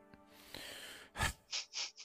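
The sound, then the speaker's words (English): A person taking a breath: a sharp, quick intake of air followed by three shorter breathy puffs in a fairly even rhythm, all faint and with no talking around them. “I'm just going to take a breath for a second.”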